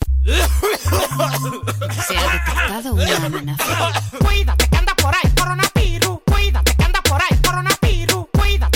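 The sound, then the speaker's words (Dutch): Loud coughing opens a song about the coronavirus, with sharp cough bursts set against a thumping bass beat and a voice weaving between them. “natuurlijk moest er ook eentje tussen zitten die de verleiding niet kon weerstaan om met keihard gehoest te beginnen.”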